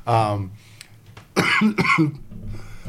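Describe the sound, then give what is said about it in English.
A person coughing: a short voiced sound, a pause, then a few harsh, rough cough bursts close together, fairly loud. “while I cough myself out all of a sudden”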